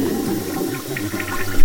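A toilet flushes in a prison cell, giving a short burst of rushing, swirling water that stays loud and rises slightly at the very end.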